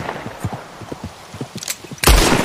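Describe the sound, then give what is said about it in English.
Gunfire in the video game Red Dead Redemption 2: a rapid, irregular string of many short, muffled shots, then a much louder, sustained blast to finish. “I'm shooting his face over and over again. I just shot his head off.”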